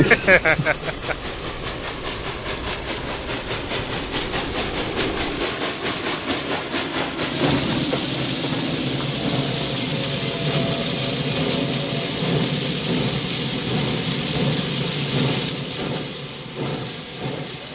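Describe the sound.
Video-game train arriving at a station in the slums: a rhythmic mechanical clatter gives way to a loud, steady steam hiss that lasts several seconds, then eases off toward the end.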